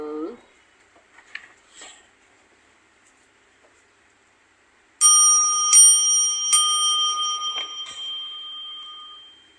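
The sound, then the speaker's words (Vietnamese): A bell rings out at night in a few sharp, bright strikes whose high, clear tones ring on and overlap, after a short stretch of faint, scattered sounds. “giữa đêm dài vọng tiếng chuông ngân.”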